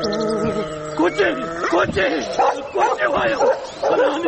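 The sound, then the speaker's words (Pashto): A large dog barks in the middle of a road: a run of sharp barks and yips, loud and irregular, mixed with a person talking throughout. “راشی دا څومره غټ سپی دی یا الله خیر کې کوچی و خلکو دا سپی د چا دی وی تړی چې ومې نخوري”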